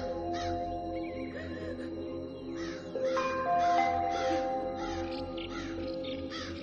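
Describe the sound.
Crows caw overhead in a flock, harsh rasping calls arriving in many irregular bursts across the whole stretch, fairly loud over a steady background.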